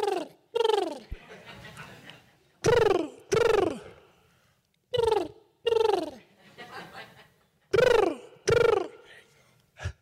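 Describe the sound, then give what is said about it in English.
Bird of paradise calls ring out in four pairs of loud, sharply descending whistled notes, eight calls in all, with fainter scratchy sounds in the gaps between the pairs. “Oh, is that the bird of paradise? That was more of a kee kee. You want to listen for more of a”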